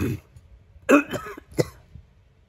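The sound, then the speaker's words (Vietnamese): An ailing emperor coughs violently and dryly, coughing up blood. A few harsh, raspy bursts come in quick succession, the first the strongest, then a shorter cough after a brief pause. “Một trận ho khan kịch liệt, hoàng đế bất giác ho ra mấy ngụm máu tươi”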